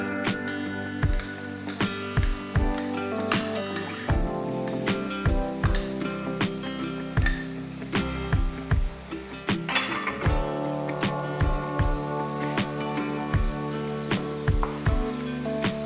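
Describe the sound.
Garlic hits browning onions in a hot pan for a chilli mustard chicken dish, giving a steady loud sizzle and fry throughout, broken by many sharp metallic clinks and scrapes of a utensil stirring against the pan.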